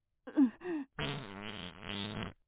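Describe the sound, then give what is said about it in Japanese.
A fart inside a car on a highway: two short, low, buzzy bursts followed by a longer rippling blast, fairly loud and alone. “匂うのはしょうがないでしょ。おならなんだから。”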